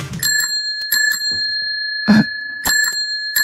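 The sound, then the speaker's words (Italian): Bicycle bell rings with several bright metallic dings, a steady high ringing tone sustaining between strikes; one ring is louder than the rest and no voices are present. “È campanello di una bicicletta.”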